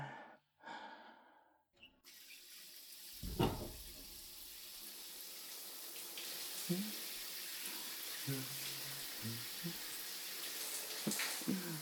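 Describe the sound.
Water runs from a tap as someone is rinsed off, a continuous soft hiss that starts after a short pause, with quiet breaths and small splashes over it.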